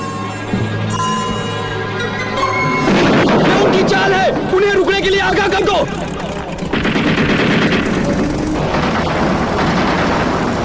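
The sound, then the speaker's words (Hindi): Loud, rapid bursts of machine-gun fire from a military scene run almost without pause, dense and rattling throughout. “ये गोलियों की आवाज सुनी?”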